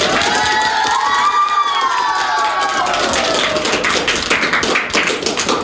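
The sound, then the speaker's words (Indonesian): Cheering and applause at an elementary school performance, with high children's shouts rising over the crowd, then a busy patter of clapping that carries through the second half. “Ayo, berikan aplaus yang meriah untuk Sesi dan Cheryl.”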